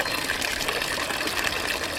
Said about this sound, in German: Das Wasser plätschert im Brunnen neben der Kirche St. Mange am südlichen Rand der St. Galler Innenstadt.